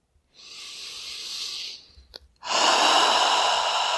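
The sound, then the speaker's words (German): A deep breath during a guided relaxation exercise: a long, airy inhale lasting over a second, a brief pause, then a strong, sustained exhale that carries to the end. “Und atme einmal ein.”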